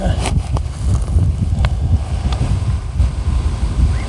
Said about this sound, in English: Oh, wind grabbed it.